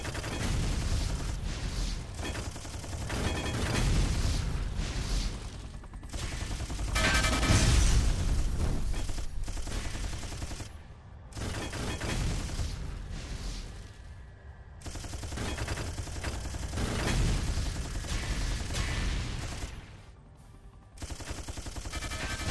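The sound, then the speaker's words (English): Gunfire and explosions in a video game while strafing: loud, dense rapid bursts of shots and blasts in several long volleys separated by brief pauses, with no talk. “Love being able to just strafe and blow up everything.”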